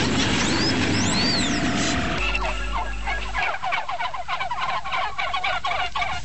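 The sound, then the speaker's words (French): Turkeys gobble in a rapid series of rattling, warbling calls. The calls repeat many times over a low, rough background drone that fades partway through. “Bonjour, les dindons. Ça va, les dindons?”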